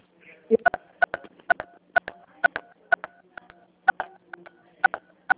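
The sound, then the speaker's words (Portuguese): Telephone keypad tones from many keys pressed in quick succession, a long run of short, sharp two-tone beeps in an uneven rhythm. “Desculpa, está apertando bastante tecla. Tá? Estava apertando bastante tecla”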